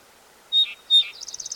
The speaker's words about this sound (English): Gillibray's Warbler in background.